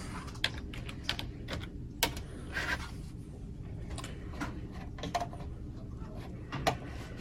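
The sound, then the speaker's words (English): Clicks of someone typing a search keyword on a computer keyboard, heard as scattered, irregular key taps, a few sharper than the rest, over a steady low background hum. “And you can just type in keyword here. And just type in LGBTQ.”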